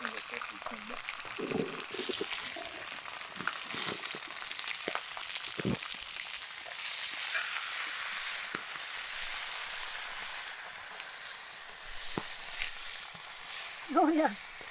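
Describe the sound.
Bacon frying in a pan, giving a steady, soft sizzling hiss with scattered crackles and pops as people talk over it.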